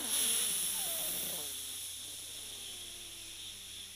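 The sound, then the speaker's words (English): A deep breath drawn in through the left nostril while the right nostril is held shut: a soft, airy hiss that is strongest at the start, then thins into a faint, steady hush. “block your right nostril and take a deep breath from your left nostril”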